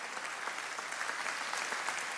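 Audience applause congratulating teachers, administrators and other educators for reaching the finish line: a dense, steady wash of many hands clapping that holds evenly throughout, with no voices over it.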